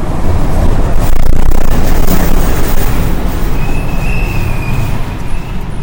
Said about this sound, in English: All right, we're here, the Port Authority bus terminal in Midtown Manhattan.